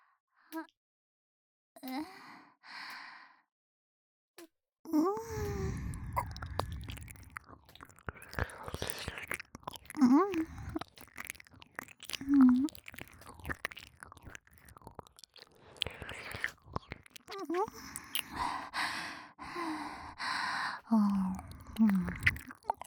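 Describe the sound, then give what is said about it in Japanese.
ASMR ear-licking mouth sounds, made of wet smacks, licks and small clicks that run almost nonstop after a few quiet breathy bursts at the start, soft and close. “耳なめご奉仕もさせていただきます。どうぞ、動いてください。”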